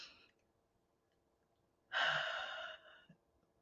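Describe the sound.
A single deep breath taken during a spoken affirmation: one long, breathy, sigh-like exhale of about a second, heard alone, following a faint earlier breath.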